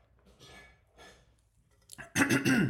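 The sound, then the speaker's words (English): A person clears their throat: soft breathy sounds at first, then a loud, rough, gravelly clearing burst at the end. “And pardon me for the clearing my throat. Hopefully that wasn't too loud. My throat was tickling when I was reading that”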